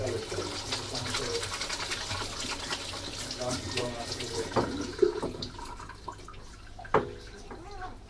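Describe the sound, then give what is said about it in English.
Dishes being washed up at a sink under running water: a steady, broad rushing wash fills the whole clip, with a few sharper knocks toward the end. “I think that's washing up.”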